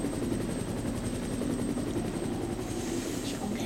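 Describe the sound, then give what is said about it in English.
A helicopter in a video game makes a steady, continuous whirring drone with a fast rhythmic rotor chop. It runs at an even level for the whole clip, with no speech. “Jill, you've got to get off the helicopter part, mate”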